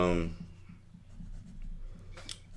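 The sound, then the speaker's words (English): Pen or pencil scratching on paper as something is written down, a soft, continuous low scraping that follows a brief burst of talking at the start. “I'm going to write this down too.”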